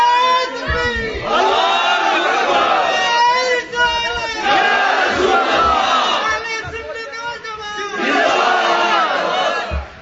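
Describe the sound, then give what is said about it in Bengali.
A large crowd at a religious gathering loudly chanting a religious slogan in unison, in several long, sustained shouted phrases separated by brief pauses. “কারা কারা চাই দুইটা হাত তুলে দেখাই তো। বড় করে একটা নারা দিন না,”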